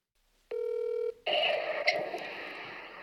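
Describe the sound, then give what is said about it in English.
Telephone dialing as a call is placed to someone: a steady, buzzy electronic tone holds for about half a second, then gives way to a continuous rough, noisy line sound, with no talking. “I am going to call him back and we're going to have a conversation with him.”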